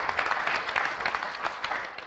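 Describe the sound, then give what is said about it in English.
Audience applause at an employee service recognition during a public meeting: many overlapping claps merge into a steady, fairly faint patter that continues throughout. “Well, she still deserves a clap.”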